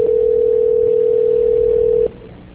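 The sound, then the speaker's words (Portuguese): A steady telephone tone heard while a call is being transferred. One loud, continuous mid-pitched tone holds for about two seconds, then cuts off abruptly and leaves faint hiss. “A ligação ficará muda por alguns instantes, eu peço por favor que não desligue.”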